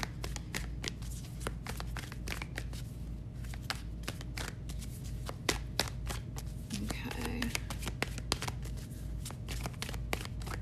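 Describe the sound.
A Radiant Wise Spirit Tarot deck being shuffled by hand for a daily reading: many sharp, papery card clicks and ticks in an irregular, continuous patter over a steady low hum.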